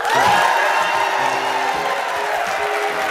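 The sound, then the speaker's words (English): A live studio audience at a radio show cheering, with whoops over steady clapping and crowd noise throughout. “The Great Northern Radio Show is broadcast in front of a live studio audience.”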